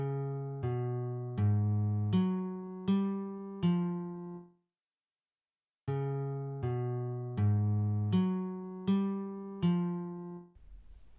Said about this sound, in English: Okay, so that would sound, this first 6 notes would sound like this.